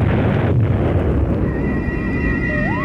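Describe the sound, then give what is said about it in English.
Heavy, roaring rumble from an experimental atomic bomb blast, loud and continuous throughout. Thin whistling tones emerge partway through, and one sweeps upward near the end. “The sound you are hearing is the final countdown to an experimental atomic blast,”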